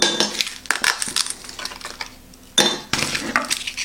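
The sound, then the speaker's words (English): Ice cubes clattering and cracking as they are pushed out from the bottom of a flexible ice cube tray with its lid off: bright, irregular clinks and rattles with one louder sharp crack, no talk. “Take out the lid. Kind of flex it just a bit. And then you push from the bottom. And so yeah, it makes it a lot easier having that flexibility from the bottom to get these ice cubes out.”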